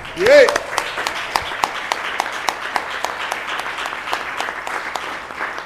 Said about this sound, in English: You're getting a standing ovation.